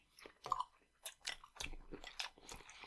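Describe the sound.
Chewing on a bite of raw tuna with wasabi: quiet, moist mouth sounds with several irregular soft crunches and smacks spaced unevenly, with no talking.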